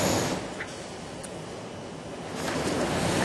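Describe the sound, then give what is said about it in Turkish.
Big sea waves driven by strong wind roar as a continuous, loud wash of surf mixed with buffeting wind noise, dipping slightly midway and swelling again toward the end. No voices are present. “Önceki gün birçok ilde şiddetli rüzgar dev dalgalara neden oldu.”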